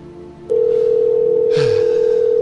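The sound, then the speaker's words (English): Outgoing telephone call tone, heard as a steady, unbroken electronic tone that starts abruptly and holds at an even loudness for about two seconds over a faint hiss. “this is just going to go to voicemail”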